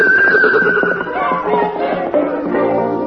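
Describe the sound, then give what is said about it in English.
A wild palomino stallion neighs in a loud, drawn-out whinny lasting a few seconds, its pitch slowly sinking as the call trails on. “roams a fearless wild stallion known to everyone around as the Golden Palomino. The riders of the B-Bar-B Ranch have tried and tried to capture him, but he always escapes them. As he gallops away, he seems to laugh at them.”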